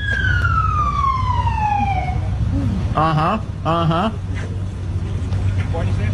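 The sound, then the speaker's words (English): A police car siren sounds during an arrest: a long falling wail over the first two seconds, then two short warbling whoops, all over a steady low rumble. “It's just, this is the sound of an arrest. Whoop, whoop. That's the sound of the police.”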